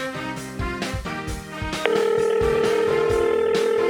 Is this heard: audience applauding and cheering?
no

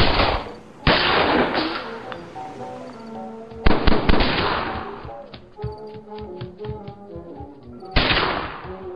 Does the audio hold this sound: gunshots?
yes

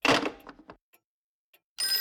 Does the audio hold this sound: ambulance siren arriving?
no

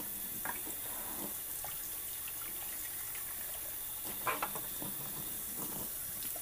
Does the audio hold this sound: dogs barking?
no

